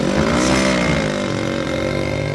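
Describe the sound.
A motorcycle engine sets off carrying two riders, a steady mid-pitched buzzing hum that stays at even loudness throughout.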